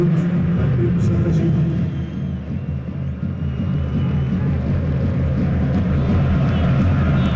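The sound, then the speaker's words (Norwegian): Football stadium crowd atmosphere at a Barcelona versus Real Madrid match, a dense, loud and continuous roar of many voices that holds steady throughout. “Håper dere kan høre litt av den deilige stemningen på stadion.”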